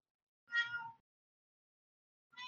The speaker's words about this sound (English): Who's meowing? That's my cat.